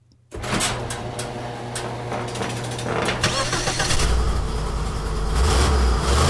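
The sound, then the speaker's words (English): A big-block engine in a 1971 Lincoln Continental without opera windows cuts in suddenly and runs loudly, its deep roar building toward the end. “Listen to that big block 71 Lincoln Continental sans opera windows.”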